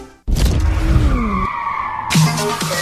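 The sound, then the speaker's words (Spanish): Off-road racing vehicles such as buggies and motocross bikes skid and roar, with a loud tire squeal sliding down in pitch under engine noise, then a second burst of engine sound near the end. “Llega la carrera rosa Off-Road 2026 de Speed Pro Racing, con buggies, racer, motocross y cuatrimotos.”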